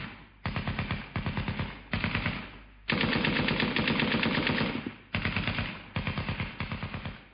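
Automatic gunfire fired from a rock position: rapid rattling shots in several bursts separated by short gaps, with one long sustained burst in the middle, loud and without voices.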